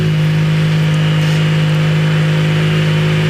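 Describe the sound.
Rally car engine rumbling as the car leaves the start point, a steady low drone with a strong hum that holds evenly throughout, with no other sounds over it.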